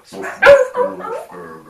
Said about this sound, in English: Bad dog.